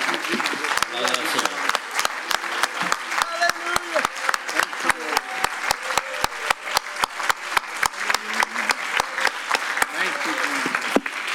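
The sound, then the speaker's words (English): A church audience claps hands together in a steady, even rhythm. Many sharp claps repeat without a break, with voices faintly underneath. “One more time, can we clap our hands unto the Lord.”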